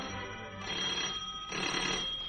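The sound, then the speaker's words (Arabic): A telephone bell rings in a steady, bright jangle that carries through the whole moment and grows louder in its second half, with no voices over it. “تليفون علشانك”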